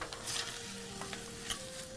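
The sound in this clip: Ingredients sautéing in oil in a pan over medium heat give a faint, steady sizzle broken by a few soft stirring scrapes, with a thin humming tone running underneath.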